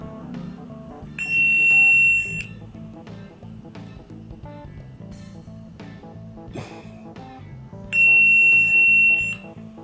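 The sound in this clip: A sequence of shrill, high test frequency tones plays as two separate bursts, each lasting just over a second with a long gap between them. A steady low background sound continues underneath.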